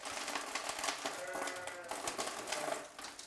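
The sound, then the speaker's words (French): Twelve ewes entering a milking parlour one after another on an organic sheep farm in the Basque Country: irregular clattering and knocking of hooves and metal stalls at moderate loudness, continuing throughout. “donc les brebis elles rentrent là, l'une après l'autre, elles sont 12. La première passe la tête ici dans la tâche, elle se bloque et on lui donne un peu d'aliment.”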